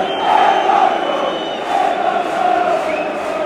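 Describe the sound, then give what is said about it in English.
Football crowd at Old Trafford during Manchester United against Liverpool, with away Liverpool fans chanting. The loud massed voices swell and ebb in a few rolling waves. “Well, the Liverpool fans, you can hear to the right.”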